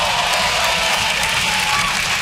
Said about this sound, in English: Never as much applause on that part.